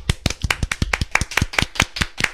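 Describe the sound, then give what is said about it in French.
Audience applauding firefighters at a live public event for the national holiday: a rapid series of sharp, distinct claps in a fairly steady rhythm, with no speech over them. “Oui, bravo les pompiers. Bravo. Allez, on applaudit.”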